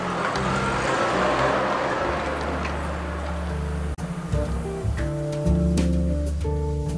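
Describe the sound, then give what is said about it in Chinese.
A car drives away with a loud, steady low engine hum and shifting tonal layers, with a brief dip partway through and no talk. “刘志军说完便高高兴兴地跟着石竹开车走了。”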